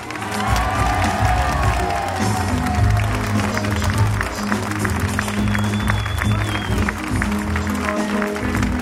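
A crowd applauds and cheers to welcome Marine Le Pen at a political rally in Hénin-Beaumont, a dense, loud, continuous roar of clapping and shouting that holds steady throughout.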